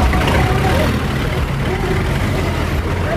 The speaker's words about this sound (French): Ici, nous sommes au parking des bus de transport en commun en mairie de Bujumbura